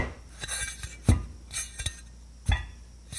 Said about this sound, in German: Wir geben ein bisschen Öl dazu. Und mit einem Löffel fangen wir an zu mischen. Wir mischen, mischen, mischen.